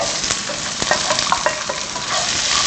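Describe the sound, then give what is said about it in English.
Fennel and then onions sizzle as they fry in hot ghee or oil in a non-stick pan, a steady loud crackle with scattered small pops and spits throughout. “I add in the fennel. Let it sizzle. So you can, actually this room has got a lot of nice aroma here. Fry this. Add in the onions.”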